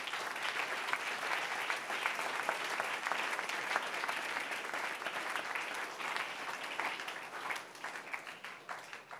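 An audience claps at a religious gathering, sustained and loud, as a dense wash of many hands. It holds steady for about nine seconds and eases slightly at the end.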